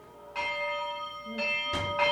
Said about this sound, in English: For half a century, Vesper services, matins, Bible studies, and weaving classes have all been announced with a bell.